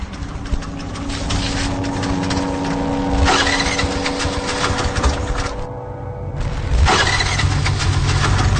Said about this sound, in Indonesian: motorku susah untuk dihidupkan. Duh, kenapa lagi nih motor?